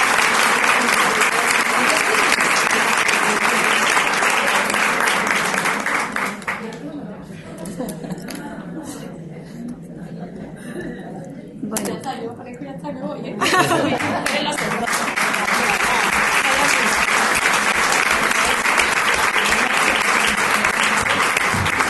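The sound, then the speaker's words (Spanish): Audience applause at a women's associations federation event, honouring a woman for her work. Dense, steady clapping thins out and quietens for several seconds, then swells back to full, sustained volume. “un aplauso para Mari Carmen por su trabajo”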